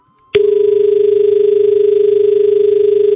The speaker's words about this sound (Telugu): Call cut అయిపోయింది.